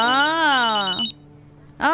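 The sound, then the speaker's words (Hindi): A phone rings with a bright, melodic electronic ringtone: one sustained burst of layered tones, a short gap of near-silence, then the ring starting again. “मैं phone उठा सकती हूँ? उठा लीजिए, लेकिन संभल के बात कीजिएगा।”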